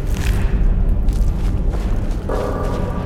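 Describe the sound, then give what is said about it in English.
A fireball spell explodes in a video game as a loud, deep, rumbling boom that keeps roiling through the whole stretch, with a brighter tonal layer joining near the end. “I hit Lydia. I'm sorry, Lydia. I'll only shoot one fireball at a time from now on.”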